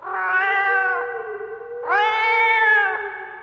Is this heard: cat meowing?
yes